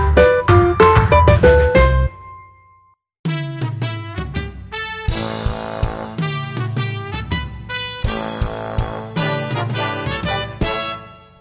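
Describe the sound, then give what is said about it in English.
Trivia contest theme music plays in bright, clipped notes, breaks off into a brief silence after about two seconds, then resumes in a lively run that lasts to the end. “That is the sound of our new trivia contest music”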